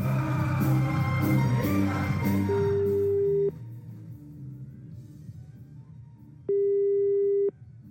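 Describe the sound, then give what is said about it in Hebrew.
Telephone ringback tones sound as a call is dialed. A louder tonal passage fades out, then two steady, evenly pitched rings of about a second each follow, separated by a long pause. “ובואו נעבור לחיוג נוסף.”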